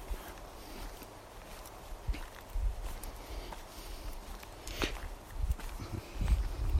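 Footsteps on a path full of shards among broadleaf deciduous trees, a slow, uneven series of faint crunching steps with no talk.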